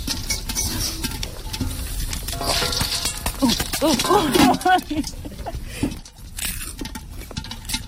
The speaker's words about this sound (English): Wow, popcorn on a real fire. I think you should just take the lid off. No, guys, they're all gonna pop off.